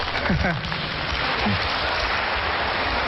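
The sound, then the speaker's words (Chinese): Warm audience applause greeting two performers at a Chinese crosstalk comedy show, a dense, even wash of clapping with a brief voice near the start. “谢谢大家给我们这么热烈的掌声。”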